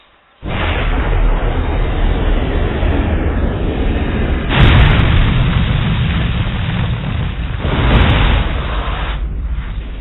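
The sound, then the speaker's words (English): A huge explosion of a planet blowing up: a sudden onset into a continuous, loud roaring rumble with deep booming surges in the middle and near the end, no voices. “the only thing that can make me leave now is if the planet somehow spontaneously exploded”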